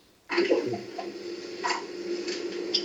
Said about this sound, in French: Il fait marcher l'imprimante.